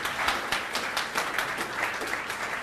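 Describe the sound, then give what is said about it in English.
An audience applauds with dense, steady clapping that holds at an even level throughout, with no single claps standing out. “Yeah, give it up for Shawshank Redemption. Come on.”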